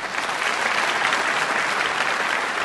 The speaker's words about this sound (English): I'm going to raise my hand for a round of applause and imagine commercials are playing somewhere